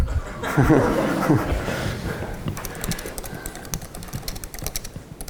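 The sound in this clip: Someone types on a computer keyboard during a talk in front of many watching people. A steady run of many quick, light key clicks sits over a murmur of background crowd noise.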